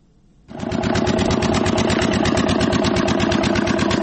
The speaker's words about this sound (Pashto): لدی جنراتور څخه د پایپ جوړولو د فابریکې لپاره برېښنا برابرېږي.